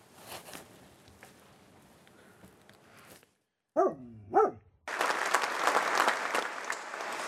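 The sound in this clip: Audience applause at a political discussion, a few seconds of scattered clapping, then a short silent gap broken by two brief, tonal bark-like yelps, before louder, fuller clapping returns and continues to the end.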